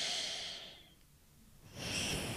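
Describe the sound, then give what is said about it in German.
Breath drawn through the left nostril during alternate nostril breathing for stress relief: soft airy rushes, one at the start and another after a quiet pause, faint and without voice. “Also rechtes Nasenloch zu, links einatmen,”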